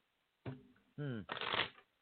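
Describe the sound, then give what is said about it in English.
Shuffling of a deck of tarot cards in a few brisk bursts of riffling, slapping card noise, the last burst the longest, faint against an otherwise quiet background. “I got one more deck to shuffle.”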